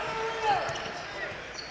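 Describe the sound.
A basketball is dribbled on the court during a college game, giving a few thudding bounces over steady crowd noise and voices.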